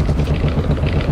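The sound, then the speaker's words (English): Steady, loud rumble of a car driving along a road at night, a continuous low engine and road drone with no breaks or voices. “This is the sound of someone driving along a road at night.”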